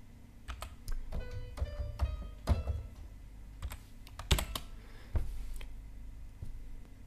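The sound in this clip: Keystrokes on a computer keyboard entering music notes, sparse irregular clicks and taps with a few louder thunks, and no talking.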